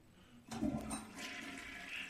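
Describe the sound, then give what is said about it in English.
A toilet flushes in a bathroom. The rush of water starts abruptly, then keeps churning and hissing at a steady level to the end, with no talk over it. “Stop flushing it!”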